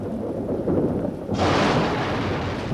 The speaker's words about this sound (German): Ruhe, ein Blitz!